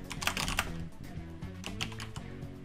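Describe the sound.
Typing a note into a font tool's notes field on a computer keyboard: a quick, steady run of many crisp key clicks with no voices.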